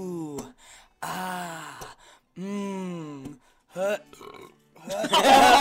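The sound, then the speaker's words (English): A few drawn-out, low-pitched voiced burps with a tonal, croaking quality, separated by short pauses, the last one ending in a noisier, breathy rasp. “That was the only time you burped and it wasn't gross.”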